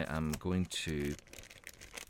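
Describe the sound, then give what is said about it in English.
A voice speaks briefly, then a small package attached to an envelope is opened with soft, irregular crinkling and rustling of its bag wrapping. “got is an envelope, and there's a little package attached to the envelope.”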